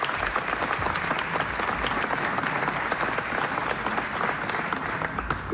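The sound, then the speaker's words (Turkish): Concert audience applauding at a Turkish folk music concert by radio artists, a continuous, dense patter of many hands clapping at a moderate, fairly quiet level throughout, with no voices on top. “Alkışlar devam ediyor ve huzurunuza Şef Mehmet Erenler geliyor”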